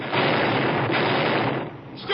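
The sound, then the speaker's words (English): A sci-fi laser pistol blast fired at a charging beast: a loud, harsh roaring burst that holds steady for about a second and a half, then drops away briefly before a fresh swell at the end. “Maybe a blast from this laser pistol.”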